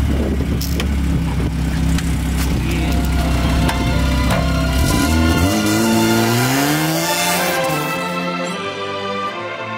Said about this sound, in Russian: братва, сейчас будем дрифтовать. Поехали.